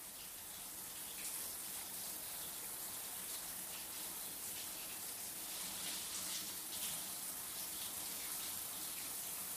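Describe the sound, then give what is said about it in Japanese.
Running water as a person's body is washed, a faint, steady stream of rushing and splashing that stays even throughout without distinct separate splashes. “君の体も洗ってあげるよ。人にやってもらうと気持ちがいいよ。やってあげるから、おいで。”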